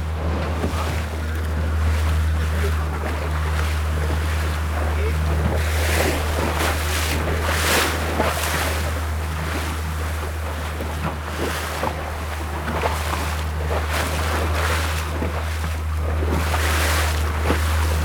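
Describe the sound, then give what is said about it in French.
A small boat cruises along the Chilean coast on the Pacific Ocean, about fifteen kilometres offshore. A steady low engine hum runs beneath continuous wind noise and washing, splashing water. “Ah, j'aime ça, ce son de cabotage.”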